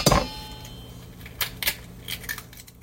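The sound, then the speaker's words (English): Eggs cracked into a bowl: a sharp shell crack at the start, followed by a few faint clicks and taps of shell against the bowl in otherwise quiet surroundings. “And we're going to crack a couple of eggs. We have two eggs. We're going to crack them.”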